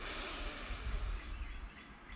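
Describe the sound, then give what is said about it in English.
A deep breath drawn in through the nose during a breathing exercise: a steady, rushing airy hiss that lasts most of two seconds, then thins out and fades. “We breathe in with a loud, extending our belly, hold slightly at the top”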